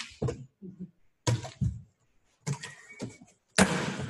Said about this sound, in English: Let's open up the box and see what's in it.